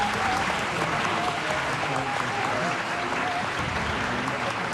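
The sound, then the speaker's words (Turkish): An audience applauds a choir and its conductor at the end of a folk song concert. The clapping is thick and sustained, holding a steady level throughout. “Efendim koromuzu ve şefimiz Soner Özbilen'i bir kez daha alkışlıyoruz.”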